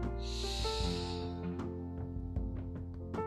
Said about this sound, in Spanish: Vamos a tomar aire llenar nuestros pulmones de aire.